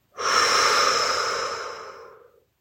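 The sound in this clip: A slow, deep breath taken during a guided visualization exercise, heard as one long, steady, airy exhalation that fades out gradually over about two seconds, with no talking over it.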